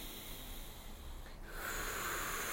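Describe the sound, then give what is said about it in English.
Deep inhale-and-exhale breathing during a guided breathing exercise: long, airy breaths with no voice, the second half noticeably louder and fuller than the first. “In. Out. Bigger breath if you can. In. Exhale.”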